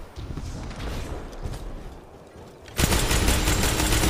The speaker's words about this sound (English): I'm just steamrolling everybody with my shotgun so far.